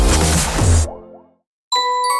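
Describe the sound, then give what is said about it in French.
A phone message notification chime: a bright, clear tonal ding that sounds after a brief moment of silence and rings steadily to the end, following a louder burst of noise that fades out. “Hey, t'en reçois des messages, toi?”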